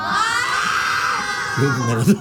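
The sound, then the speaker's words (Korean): A studio audience screams in support during a popularity vote: a loud, sustained, high-pitched crowd shriek that fades, followed by a brief voice at the end. “누가 더 좋은지 인기 투표 한번 해볼까요? 그래요. 여러분 남창이 좋아하는 사람 소리 질러. 윤정수 좋아하는 사람 소리 질러.”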